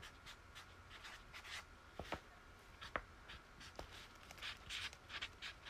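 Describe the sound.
Pen scratching on paper as a list of points is written by hand: faint, uneven bursts of scratchy strokes with a few sharper taps, no voices.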